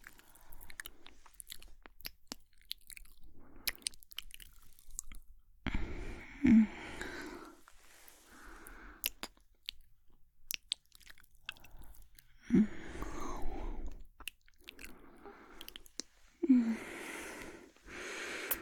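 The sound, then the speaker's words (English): Wet mouth sounds of nibbling and chewing on a neck: intermittent smacks, bites and soft crunchy bursts separated by quiet gaps, mostly faint, with no talk. “What if I nibble? Would that be okay?”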